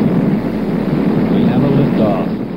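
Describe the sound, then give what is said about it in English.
The 1973 Skylab 4 rocket launch at liftoff: a loud, dense, steady roar that rumbles on without a break. “Three astronauts are about to rocket to nearly 300 miles above the surface of the Earth. 3, 2, 1.”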